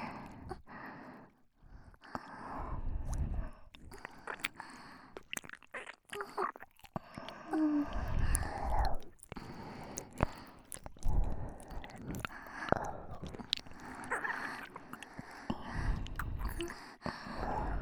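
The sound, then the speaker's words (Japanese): Wet ear-licking mouth sounds in a Japanese ASMR roleplay, made while an arm massage continues: soft, irregular smacks, squishes and slurps come in quiet clusters with brief pauses between them. “私は腕のあんまを続けたまま、耳なめをさせていただきますね。”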